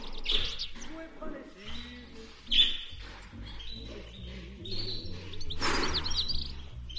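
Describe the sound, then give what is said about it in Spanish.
A parakeet singing in a patio full of flowerpots: bright, repeated chirps and tweets with a few sharper squawks, irregular in rhythm, over a low background. “Entre ellos un gracioso periquito canturrea.”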